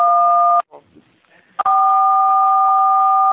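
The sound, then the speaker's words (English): Telephone keypad button tones cut into a call line: two steady, dual-pitched electronic beeps, a short one and then a longer one lasting nearly two seconds, separated by a brief gap with faint muffled noise. “Would someone stop? Whoever is pushing a button, stop pushing”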